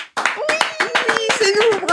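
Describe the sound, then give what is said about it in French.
Hand clapping from a small studio audience on a comedy talk show: many quick, sharp claps in a brisk burst, with a voice talking over them. “Est-ce qu'on doit applaudir? Oui, on s'applaudit. C'est pour l'ambiance.”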